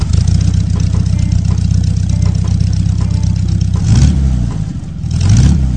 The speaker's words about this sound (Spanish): Tienes recuerdos de un automóvil que no era bonito, no era especialmente atractivo, y generalmente era sinónimo de humor o burlas, pero que finalmente permanecía como un guerrero en el camino. El Bocho.